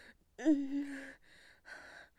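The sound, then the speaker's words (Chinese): A deep, audible intake of breath from a person straining against tight rope bonds: one loud, slightly voiced gasp, then softer breathing that fades and returns once more. “挺胸收腹，我。深呼吸。”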